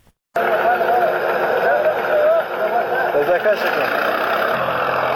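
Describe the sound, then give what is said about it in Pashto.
A tractor engine drones steadily as it ploughs up a poppy field in Nawzad district, Helmand: a continuous broad rumble that starts abruptly and runs throughout, with voices audible over it. “دا د هلمند په نوزاد ولسوالۍ کې پر ټراکټور د کوکنارو د کښت اړولو غږونه دي”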